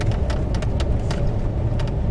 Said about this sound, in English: this is a big traffic jam here. There's two cars on the road, one coming behind me.